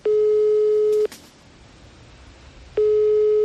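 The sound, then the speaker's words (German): A telephone ringback tone sounds while someone is being called: two steady, mid-pitched beeps about one second long, separated by a pause of nearly two seconds, clear and alone with no talk. “Und den werde ich jetzt einfach mal anrufen.”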